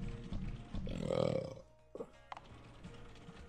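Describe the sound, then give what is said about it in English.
One long, loud, throaty burp swells and then trails off, followed by a brief quiet stretch and faint low noises. “Oh, that burp felt so good.”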